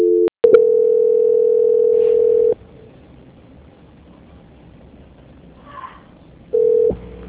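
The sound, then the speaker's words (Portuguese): Telephone tone during a call transfer: a few sharp clicks, then a steady single-pitch tone for about two seconds, a long near-silent stretch, and the same tone returning briefly near the end. “Peço que, por favor, não desligue. Transferência.”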